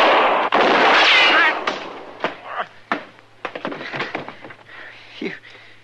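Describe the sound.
Gunfire in a staged Old West gunfight drama: a loud, sustained blast of shots followed by several sharper reports, with voices talking in between.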